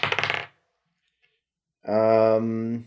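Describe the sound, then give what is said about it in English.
A die clatters as it is rolled during a tabletop role-playing game: a quick burst of several rapid, sharp clicks and rattles that stops within half a second. Silence follows, and then a voice speaks. “Here's the die. Here's the die. Here we go.”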